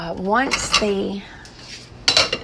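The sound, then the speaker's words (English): Metallic clanks of a lid being set onto a pot of cooking oatmeal: a short clatter early on and another sharp rattle near the end, with a steady tonal hum in between. “the oatmeal is about done. I'm going to put a lid on it.”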